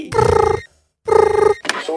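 A telephone rings in two trilling bursts of about half a second each, separated by a short silence, with a rapid pulsing texture and a brief sharper tone right after.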